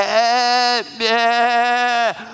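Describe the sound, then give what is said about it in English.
A goat bleats twice in long, loud, nasal cries; the first breaks off, then a second, longer bleat follows, and each drops in pitch as it ends. “whenever they saw a goat or heard a goat”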